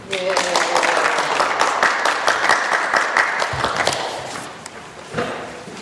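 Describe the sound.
Audience applause welcoming a lecture speaker, the director of a forensic studies program. Crisp, dense clapping sounds from the start, with a voice briefly mixed in. It gradually thins and fades toward the end.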